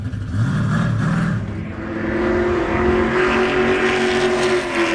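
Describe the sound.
A race car accelerates at full throttle on a track, its engine roaring loudly and steadily for the whole stretch, with a brief dip in level before the roar builds again.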